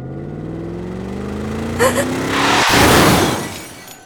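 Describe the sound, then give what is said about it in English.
Car tires rolling from pavement onto gravel and then dirt. A steady engine hum rises slowly in pitch, then a sharp knock gives way to a loud swell of gritty, crunching noise that fades toward the end. “This is the sound of my tires on pavement, then gravel, then dirt.”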